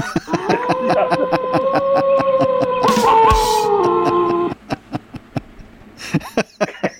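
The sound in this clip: A person imitates a dog with a long, drawn-out, wavering howl that holds a steady pitch for a few seconds, set against a steady ticking beat that carries on after the voice stops.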